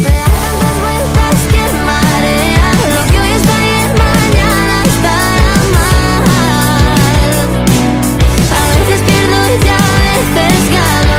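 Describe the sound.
A pop single, the first from a singer's second EP, about being stuck in a dysfunctional relationship loop: a dense, loud track with a steady driving beat and layered melodic lines throughout.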